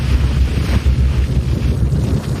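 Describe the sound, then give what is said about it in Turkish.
Fishing boats head back out to sea off Zhejiang, China, after a typhoon has passed. A continuous low engine rumble mixes with water wash and heavy wind buffeting against the microphone. “Bunun üzerine 8000'den fazla balıkçı teknesi yeniden denize açıldı.”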